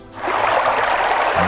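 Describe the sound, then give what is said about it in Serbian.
A flowing stream gives a steady, dense rushing and gurgling wash of water that swells in after a brief quiet start and runs on evenly. “I sad si mi obećao neku gužvu saobraćaja. Šta si mi obećao? Ne, potok.”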